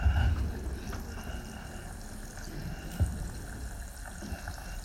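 Water is poured into a dish while cooking, a soft, continuous trickle and splash with a couple of low knocks from the cookware.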